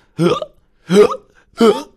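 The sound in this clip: Three voiced hiccups from a cartoon dinosaur character, performed by a human voice. They are short, throaty and evenly spaced, about three-quarters of a second apart, each one loud and abrupt with a brief vocal tone.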